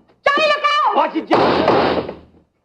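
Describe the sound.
A closet door being opened: a wavering, squealing creak, then a broad rattling scrape that trails off.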